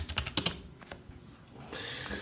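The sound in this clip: Computer keyboard typing as a short chat message is entered: a quick cluster of crisp key clicks, then softer, sparser tapping trailing off.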